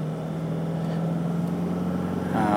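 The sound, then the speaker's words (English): A car driving along an open road at sunset sends up a steady, low engine and road drone that stays even throughout, with no talk. “And driving out to see Alison again.”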